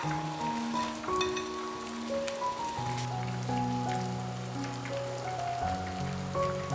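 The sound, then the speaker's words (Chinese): Vegan Taiwanese hot and sour soup with tofu, black vinegar and hairy gourd comes to a hard boil in an uncovered pot. It gives a faint, steady bubbling hiss beneath gentle music. “开盖子煮到大滚，节瓜就已经熟了。”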